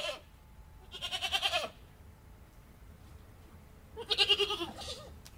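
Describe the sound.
Goats from a herd with their young kids bleat in Mayenne, France. Two wavering, quavering bleats stand out, one early and one near the end, with quiet between them.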